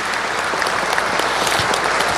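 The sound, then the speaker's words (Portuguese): Audience applause at a live radio and internet broadcast event, offered to the listeners at home: dense, steady clapping that holds at an even level for about two seconds, with no talking over it. “vamos aplaudir o povo de casa, o povo que nos assiste, que nos acompanha.”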